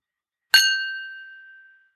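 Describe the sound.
A single clink of crystal glasses in a toast gives a sharp strike that rings on as a clear, bright tone and slowly fades over about a second, with nothing else around it.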